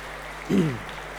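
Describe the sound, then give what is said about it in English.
Audience applause at a church Advent talk: steady clapping throughout, with a brief vocal whoop rising over it near the middle. “give that a round of applause”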